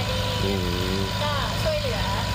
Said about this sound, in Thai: ครับผมเครื่องสูบน้ำนี่ก็ของเทศบาลใช่ไหม